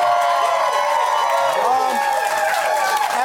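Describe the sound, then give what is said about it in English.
A small talk-show studio audience gives a standing ovation, with dense, steady applause, cheering and whooping voices sustained at a loud, even level throughout. “We've only had two standing ovations from our teeny audience. One was for Oprah Winfrey. The other was for the two of you.”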